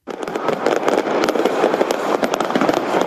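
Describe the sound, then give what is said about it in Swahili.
Fireworks welcoming the new year, a dense, continuous barrage of crackling pops and bangs that stays loud throughout with many overlapping bursts. “Wengine waliukaribisha mwaka huu mpya kwa maombi na fataki, kama anavyotujuza mwandishi wetu Florence Kivuva.”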